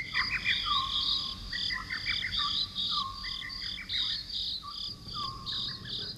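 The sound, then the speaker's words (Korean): Grass insects chirping under moonlight, a steady high-pitched cricket chorus of pulsing trills, with a lower repeated chirp returning about every second or so beneath it. “은은하게 비치는 달빛 속에 풀벌레 울음소리가 구슬프다.”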